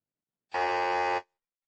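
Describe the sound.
A quiz-show wrong-answer buzzer sounds once: a harsh, steady, loud buzz lasting under a second, starting and stopping abruptly, alone with no voices.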